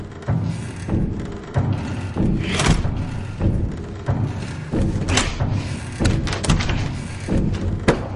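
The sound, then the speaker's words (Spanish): A shoulder repeatedly shoves against a stuck door in a house, making many heavy, irregular thuds and knocks over a dense, rumbling background, with no talking. “Lo agarra y empuja la puerta con el hombro repetidas veces.”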